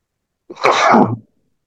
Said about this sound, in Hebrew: סליחה, יש לי אפצ'י.